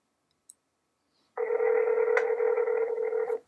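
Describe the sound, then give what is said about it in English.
A telephone dial tone holds as one steady, even hum for about two seconds, with a faint tick shortly before it starts. “The president pressed pause on the Skype call and dialed the Tokyo head office.”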